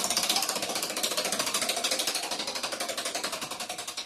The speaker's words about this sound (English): Let's spin this wheel